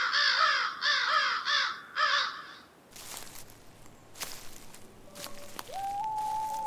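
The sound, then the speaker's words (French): Crows cawing in a quick run of harsh, raspy calls over the first two seconds, followed by quieter scattered knocks and clicks. “Qu'est-ce que j'entends? Ce sont les corneilles qui croissent.”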